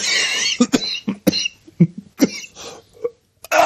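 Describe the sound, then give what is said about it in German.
Coughing after choking on something swallowed the wrong way: many sharp, harsh coughs in an irregular series with short gaps between them, ending in a last quick burst after a brief silence. “oh, Entschuldigung, ich habe mich total verschluckt.”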